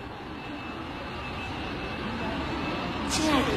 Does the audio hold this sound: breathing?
no